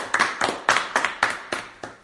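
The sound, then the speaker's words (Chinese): An audience claps in unison at a Christian gathering, giving seven crisp, evenly spaced claps in a steady rhythm at fairly low volume. “我们鼓掌，谢谢今天所有见证人的美好见证，谢谢。”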